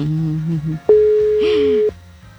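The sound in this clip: A telephone ringback tone plays while a caller waits for someone to answer. One long, steady beep at a constant pitch lasts about a second, and a voice talks just before it and over it.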